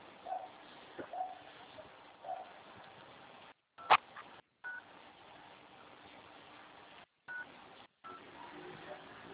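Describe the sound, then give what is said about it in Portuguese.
Telephone keypad tones sound while a phone call is being transferred: a few brief beeps on a quiet, narrow phone line, with short gaps of silence between them. “Deixa eu tô tentando transferir a ligação, não tá aí?”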